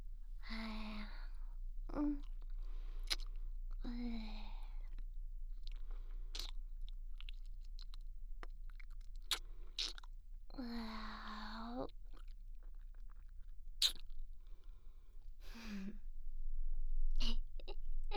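Crunchy chewing of a lemon-cola flavoured snack: sparse, sharp crunches scattered over a steady low hum, with a few soft vocal sounds in between.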